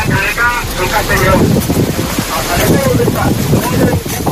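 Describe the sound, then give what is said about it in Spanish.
Strong wind gusts at night at a forest fire where firefighters are working, a loud continuous roaring rush that buffets the microphone throughout. “Estos son los trabajos de los bomberos durante esta misma noche en ese incendio forestal. Las fuertes rachas de viento, el gran inconveniente que se están encontrando.”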